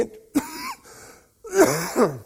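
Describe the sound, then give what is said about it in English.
A few rough coughs and throat-clearing bursts from a preacher giving a sermon on prayer, moderately loud, with short pauses between them and no speech. “I haven't coughed at all until I got up here.”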